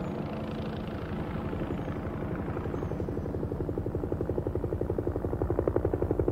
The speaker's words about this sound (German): sagt der Lorenz hier, der Hubschrauber kommt